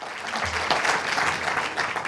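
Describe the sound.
Dense, continuous applause from a conference audience welcoming a keynote speaker, holding steady throughout.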